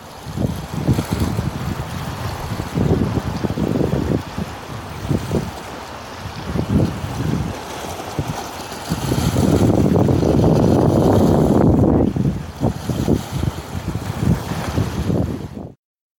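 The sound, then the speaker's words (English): Water lapping and sloshing against the old pilings of Astoria's waterfront, where the old city once stood: irregular low splashes rise and fall over a steady rumble of wind, with no voices. “This is the sound of water lapping at the pilings of Astoria's waterfront, right where the old pilings are on which the old city used to sit.”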